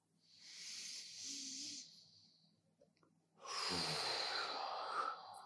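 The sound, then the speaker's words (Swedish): Two long, hissing breaths during a guided deep-breathing moment, separated by a short pause, the second fuller and slightly louder with more low body, both faint and with no talk over them. “Och det är djupaste andetaget du har tagit idag.”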